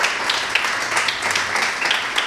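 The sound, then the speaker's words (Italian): Audience applause welcoming a guest at a business event, a dense, steady wash of clapping that holds at an even level from start to finish. “Allora vi chiedo di accogliere con un bel applauso Vittoria Gozzi, consigliera di amministrazione di Duferco”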